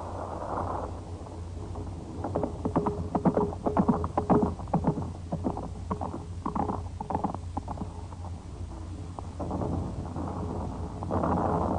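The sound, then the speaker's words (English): A cavalry horse galloping furiously through bombed streets, its hoofbeats coming as fast, rhythmic muffled thuds that swell in the middle and thin out later, fairly faint over a low, continuous rumble. “A young Polish cavalry lieutenant rides furiously through the bombed streets to the house of his friend, Captain Victor X”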